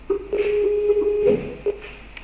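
A telephone tone sounds while a group call is being placed, a steady mid-pitched electronic tone held for over a second, then a few shorter tone bursts, fairly faint.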